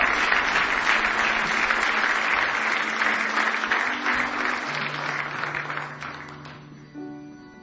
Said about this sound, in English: Give Him one more big hand clap of praise if you love Him tonight.